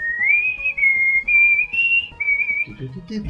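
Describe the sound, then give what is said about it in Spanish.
A whistled TV series soundtrack melody sung a cappella: a single clear, high whistle moving through sustained notes with small steps and slides in pitch, loud and alone. “que estamos tan faltos de presupuesto que a puro chiflido de nuestra banda sonora.”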